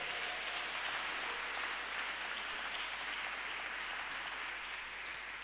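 A church audience applauds new members with a steady, even roar of clapping that holds the whole time, with no voices on top.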